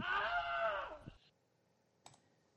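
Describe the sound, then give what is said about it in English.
A Wilhelm scream sound effect: a short, strained, high cry that bends downward in pitch over about a second. Silence follows, then one faint click. “That's the Wilhelm.”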